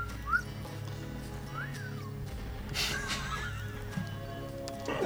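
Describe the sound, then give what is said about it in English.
Gentle whistling by an old man in a video game: a few soft, short tones that glide up and down, spaced apart over a faint, steady background. “there's an old man. He's whistling gently to himself.”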